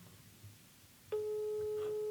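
Telephone busy signal after a rejected FaceTime call: quiet background hiss, then a single steady electronic tone lasting about a second.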